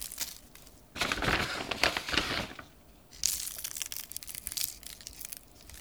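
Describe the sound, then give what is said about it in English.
Pressed little balls of salt rain onto the bellies of soft pretzels in two granular, crackly bursts, each a dense patter of tiny grains, separated by a short quiet gap. “It's some kind of thing that's been like pressed together into little balls of salt. And I sprinkle the pretzels, especially the bellies.”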